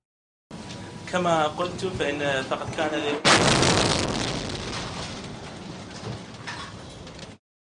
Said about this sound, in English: A rocket exploded just 50 yards away from their meeting. Ban Ki-moon cringed and ducked at the sound of the blast.